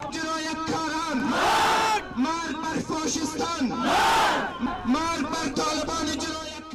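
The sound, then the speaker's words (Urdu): Protesters in Kabul chanting against the Taliban, a large crowd of voices shouting slogans in unison, swelling twice into loud massed surges between steadier chanted phrases. “ادھر کابل میں لوگوں نے طالبان کے خلاف احتجاجی مظاہرے کیے ہیں اور طالبان مردہ باد کے نعرے لگائے۔”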